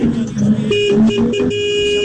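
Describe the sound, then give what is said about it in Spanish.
A car horn honks in the morning, sounding as steady, sustained tones that hold for about two seconds with slight shifts in pitch. “Primero bocina a la mañana, ¿eh?”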